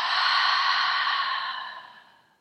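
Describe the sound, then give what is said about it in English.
A deep breath drawn in and let out in a long, soft airy exhale that fades away gradually over about two seconds, with no talking. “let's take a nice deep breath in and then exhale out.”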